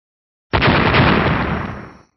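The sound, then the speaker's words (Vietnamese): Blue lightning orbs explode against a defensive shield in a sudden loud burst of roaring noise that holds for about a second and a half, then fades away. “Vô số lôi cầu màu xanh đánh lên cái thần phòng ngự do ba người thi triển thì lập tức ào ào nổ tung”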